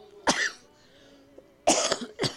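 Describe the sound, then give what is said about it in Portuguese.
A person coughing: a few short, harsh coughs with a quiet gap between the first and the later ones, the last two coming close together. “Também estamos aí, irmãos, atacados, né, da tosse.”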